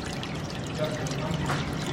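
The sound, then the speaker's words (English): Water runs steadily through an irrigation system feeding medical cannabis plants, a continuous, fairly soft trickling and rushing hiss that stays even throughout. “An intricate water system feeds these plants.”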